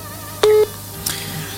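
Telephone tones on a call-in line: a short, loud, steady beep is followed moments later by a fainter second burst over a quiet line hiss.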